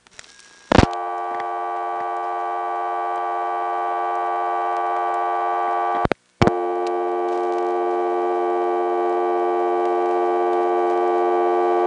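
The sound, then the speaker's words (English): A telephone reorder tone plays on an older step-by-step exchange after dialing 1-8. A click starts a steady, buzzy, harmonic-rich tone; partway through, a brief dropout with clicks marks the switch sliding to the 11th terminal, then the tone resumes. “I'm going to dial 1-8, and again we get the reorder, but this time you hear it sliding over to the 11th terminal.”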